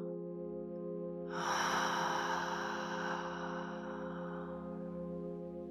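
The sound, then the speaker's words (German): One gentle breath breathed out through the mouth with a soft H in a guided breathing exercise: a faint, airy rush begins after a moment and tapers off over a few seconds, over a steady humming tone. “Und dann atme mit mir gemeinsam ganz sanft ein und losgelöst gern über den Mund wieder aus mit einem H.”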